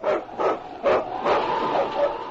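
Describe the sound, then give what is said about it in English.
A husky sled dog barks several times in a loose rhythm, with mid-pitched, slightly rough barks of fairly even loudness and no talk. “It's Yukon King, swiftest and strongest lead dog of the Northwest, blazing the trail for Sergeant Preston of the Northwest Mounted Police in his relentless pursuit of lawbreakers. On King, on, you husky!”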